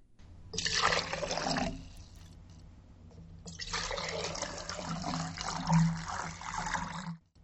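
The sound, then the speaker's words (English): Water poured twice into a container: a short pour of one cup, a pause, then a pour of two cups that lasts about three times as long, both with a steady splashing gush. “Both were the sound of pouring liquid water, but the second was twice as much water, two cups instead of one.”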